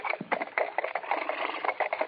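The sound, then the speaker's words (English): Horses' hooves clip-clop steadily as riders slow their tired horses after a hard run, a quick, even rhythm of moderately loud clops with no voices. “My horse is getting pretty tired. Yeah, let's slow them down a bit.”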